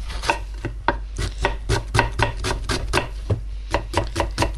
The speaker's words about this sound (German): Dann die Zwiebeln in Scheiben schneiden.